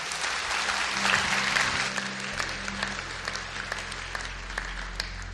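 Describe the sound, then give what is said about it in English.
A church audience claps to welcome new members, a steady round of applause from many hands at moderate volume that continues evenly throughout. “Can we put our hands together and welcome some people in today?”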